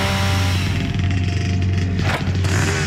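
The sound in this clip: A chainsaw cuts wood with a loud, steady engine drone full of deep, buzzing harmonics. It runs continuously throughout, with a brief shift in tone near the end.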